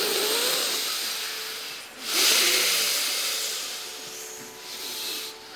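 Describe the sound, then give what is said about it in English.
A deep breath taken during a stretching and breathing exercise sounds as a long, airy hiss that swells around the middle, then eases and lifts again, with no one talking. “And deep breath.”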